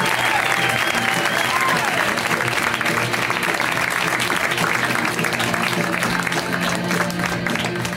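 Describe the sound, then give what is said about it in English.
Applause from a comedy club audience greets a comic coming to the stage: loud, continuous clapping with crowd voices mixed in, steady from start to end. “Please put your hands together for Steve Hernandez.”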